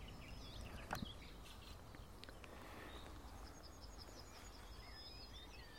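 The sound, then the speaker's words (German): A nightingale sings softly and faintly, with thin whistled notes and short trills mostly in the second half, over a quiet outdoor hush. “Also wir verabschieden uns hiermit von der Sperbergrasmücke und auch wenn die Nachtigall noch leicht singt, aber nicht mehr so stark wie vorhin,”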